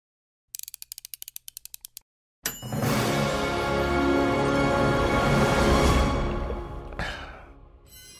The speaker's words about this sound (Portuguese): Vamos começar aí mais um Café Corrida, solta a vinheta